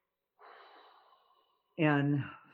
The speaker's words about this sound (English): Take a breath.